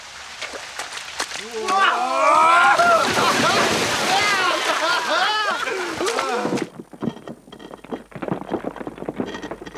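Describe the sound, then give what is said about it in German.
Water rushes steadily in a broad, hissing wash from a waterfall in a river gorge on a hot day. People talk over it at first, and after they stop the water carries on more softly with a splashy crackle. “Da drüben gibt's Schatten. Und einen Wasserfall.”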